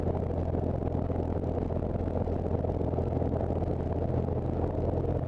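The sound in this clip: A small aircraft engine running during a pre-flight run-up with the parking brake set, a constant low, droning rumble that stays at an even, fairly quiet level throughout.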